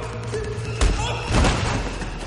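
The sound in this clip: Heavy thuds from a man being knocked down in a fight scene of an action thriller, with two dull, weighty impacts landing in quick succession.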